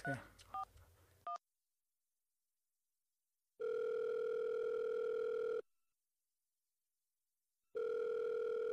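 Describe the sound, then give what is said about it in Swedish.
Telephone dialing: a quick run of keypad tone beeps, then silence, then two long, steady ringing tones separated by a pause as the call connects. “Jag slår ett random nummer här nu.”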